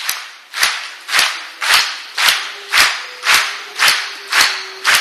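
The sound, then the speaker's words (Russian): Nine sharp hand claps come from a group trying to clap in unison, each meant to crack like a gunshot. They fall at an even, steady pace, and each ringing clap decays quickly before the next. “Одновременно так не пойдет. Очень звонкий хлопок, как выстрел.”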